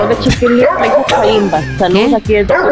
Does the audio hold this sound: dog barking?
yes